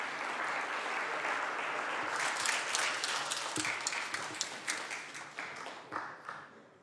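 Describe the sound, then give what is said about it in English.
Applause from the audience in the California Senate greets a fourth grade class from the Elon Ramon Day School, which burned down in the Woolsey Fire; dense, sustained clapping that thins into scattered individual claps toward the end. “give a nice warm round of applause to the fourth grade class of the Elon Ramon Day School that burned down in the Woolsey Fire”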